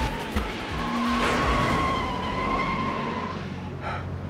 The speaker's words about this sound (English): The taxi reverses and accelerates towards Marcus, but Mike pulls him away just in time.